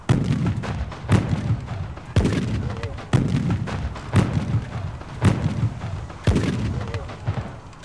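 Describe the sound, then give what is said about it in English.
A warship's gun salute from a Royal Navy vessel: seven heavy, booming artillery shots fired about once a second, each a loud thump with a rumbling tail. “We had the unprecedented honour of receiving a salute from the HMS Warspite. It's usually reserved for warships leaving to meet an enemy or returning to port victorious.”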